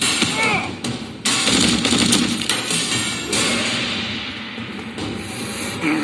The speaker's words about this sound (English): This guy's shooting zombies, and this is an ad for zombie bullets.